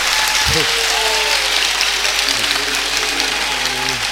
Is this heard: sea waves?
no